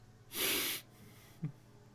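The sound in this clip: A voice imitates a dog sniffing around: one loud, breathy, snorting sniff lasting about half a second, then quiet, with a brief faint grunt near the end.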